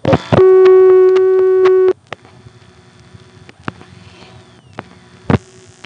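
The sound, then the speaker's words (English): A telephone line in Hague, Virginia dials 111, a vacant number. A loud, steady dial tone stops abruptly, then come scattered faint clicks and a short, louder burst near the end. “I'll be dialing 111.”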